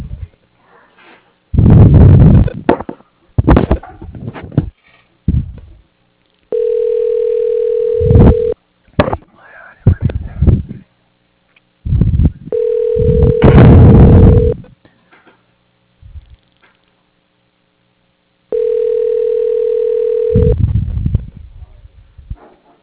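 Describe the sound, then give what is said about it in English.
A telephone line tone repeats while a call is transferred to voicemail. Three steady, even tones of about two seconds each are separated by noisy bursts and gaps of silence. “if you can transfer me to his voicemail, that would be great. Okay, one second.”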